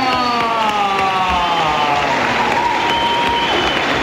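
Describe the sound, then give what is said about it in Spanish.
Audience applause fills a carnival show in Las Palmas: dense, loud and unbroken clapping holding steady throughout. “Y yo quiero que pasen y que les deis un fuerte aplauso a O'Hara, a Cookie, a Heaven, a Kimba y a Joe.”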